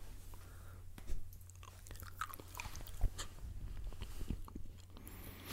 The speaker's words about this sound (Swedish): Ska vi ta en till bit av den här rubinchokladen och se om det har ändrat?